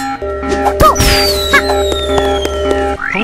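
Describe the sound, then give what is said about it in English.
A wet needle launcher weapon attack in a video game, a busy layer of electronic tones with a few sharp bursts and a long, slowly falling whistle-like tone over a steady low hum, ending on a quick rising sweep. “Wet needle launcher. 1. Attack 100. Level multiplier 5. Defense piercing. Attack enemy.”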